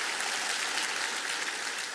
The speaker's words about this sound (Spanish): Y todos dicen: un aplauso al Señor por la sangre de Él.